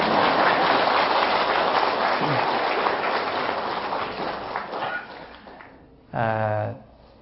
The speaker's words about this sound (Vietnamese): Quý vị có vui không? Vui mà sao không vỗ tay?